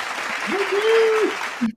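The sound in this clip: Studio audience applause sound effect: a dense, steady wash of clapping with a sustained vocal whoop riding over it, cutting off abruptly at the end.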